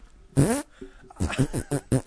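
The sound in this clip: Voices imitate fart sounds, dubbed over a comedy film as a bonus feature. A long, blubbery burst comes first, then a quick string of shorter, sputtering raspberries.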